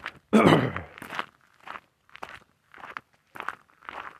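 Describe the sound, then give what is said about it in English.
Footsteps of someone walking outdoors while carrying a 45-pound weight plate: a loud, crunching first step, then several evenly spaced, softer thudding steps in a steady walking rhythm. “I'm walking with my new 45-pound plate, as usual.”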